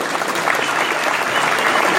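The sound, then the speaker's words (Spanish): Loud, sustained applause from an audience greets a young city councillor, with many hands clapping in a dense, steady roar that keeps an even level throughout. “un aplauso grande”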